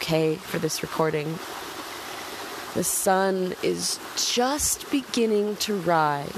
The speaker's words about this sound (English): That's the sound of the rushing water in the background.